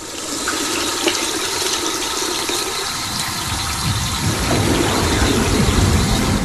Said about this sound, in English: The little girl turns on the tap and soaps her hands. As she washes her hands, the water in the toilet bowls rises and turns brown.